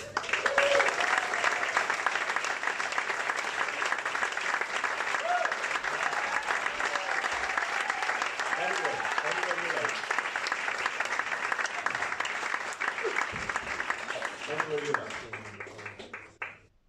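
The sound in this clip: Sustained audience applause welcomes a four-person panel onto the stage at a live show at the Whale Theatre in Greystones, Ireland. Thick, even clapping runs for about sixteen seconds with a few voices calling out, then stops abruptly.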